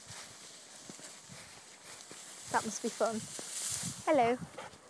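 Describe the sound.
Horse hooves clip-clop faintly and unevenly as a horse named Layla goes into corn, a string of soft knocks that sits low under people talking.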